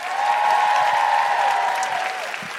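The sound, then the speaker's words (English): Applause from a live audience at a show in Canberra: dense, steady clapping that stays loud throughout, with a faint crowd murmur underneath. “And a big round of applause for Michelle Ryan. And Nikki Britton.”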